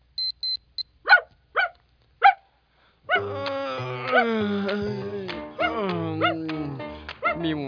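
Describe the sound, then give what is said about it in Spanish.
A dog gives three short, high yips after a few quick electronic beeps, then a person speaks in a high, cooing voice. “¿Cómo amaneció el perro más lindo de la casa? Tan lindo, tan lindo.”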